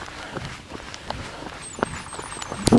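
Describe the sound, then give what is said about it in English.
Footsteps of a person running slowly give a series of soft, fairly regular thuds over low background noise, with a few louder steps near the end. “Going slow, but I'm trying to give you a feel for the run.”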